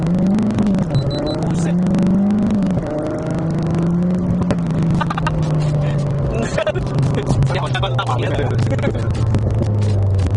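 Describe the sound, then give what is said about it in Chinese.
Engine of a manual-transmission car while driving, a loud, steady drone whose pitch swells and dips as it runs, then settles into a lower hum. “这我们在开车”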